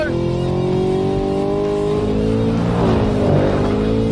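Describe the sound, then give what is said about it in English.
Engine roar from a four-wheel-drive truck with a Whipple supercharger, drag racing a Camaro: a loud, sustained engine under hard acceleration, with dense harmonic whine and rumble throughout. “What the hell is happening with this truck? It's getting its ass beat. It's a four-wheel drive Whipple truck.”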